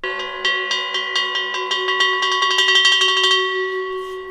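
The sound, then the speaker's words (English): Metal bells of different metals and cultures, played as music, are struck in a quick repeating pattern. Each strike rings bright and sustained, the strokes crowd closer together near the middle, then the ringing thins and fades. “It is called Resounding Earth, where different metals and over 100 bells from a wide mix of cultures and historic periods are used to create music.”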